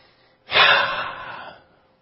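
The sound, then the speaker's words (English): A speaker takes one deep breath, a sharp airy intake that swells quickly and then tapers off over about a second, heard alone without talk. “Let me take a breath.”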